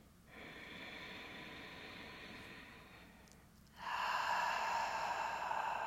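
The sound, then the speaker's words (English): A person breathing in slowly through the nostrils with a long, soft, airy inhale, then after a brief pause a louder, breathy exhale through the mouth; faint, with no talk. “Breathe into the nostrils. Exhale to the mouth. One more time.”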